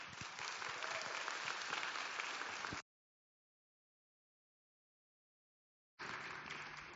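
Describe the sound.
Audience applause welcoming guest speaker Nancy Fitzgerald at a session, a dense steady clapping that cuts off abruptly to silence for a few seconds, then resumes at the same strength.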